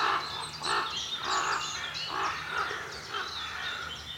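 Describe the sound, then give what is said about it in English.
Ravens perched together on a branch in the Brecon Beacons trade deep, hoarse croaking calls, a steady series of separate throaty notes, fairly loud, with no voices. “Three ravens. All sitting on a branch, talking to each other. It's hilarious. Oh, there's a fourth. It's right beside me.”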